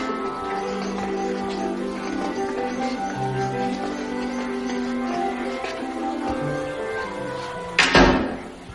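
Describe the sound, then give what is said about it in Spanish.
A bathroom door is pulled shut, one dull thud near the end that cuts through steady background music. “Luego los tres niños entran en el baño y el mayor de ellos cierra la puerta.”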